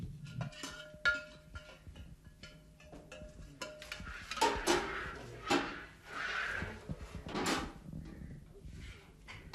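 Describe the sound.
Kitchen clatter while vegetables are cut: an irregular run of knocks, clinks and scrapes from utensils and dishes, moderately loud throughout with a few sharper hits near the middle.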